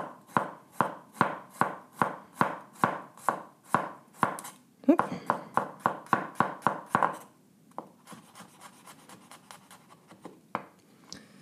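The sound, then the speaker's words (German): A knife slices food into very thin slices on a board. Many crisp, evenly spaced chops give way to a quicker run of cuts, then softer, scattered slicing and scraping. No talking. “das schneiden wir jetzt einfach in möglichst feine Scheiben”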